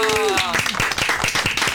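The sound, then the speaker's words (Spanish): Applause of quick, rhythmic handclaps, with a voice heard briefly at the start before the clapping carries on steadily. “¡No! ¡Un aplauso!”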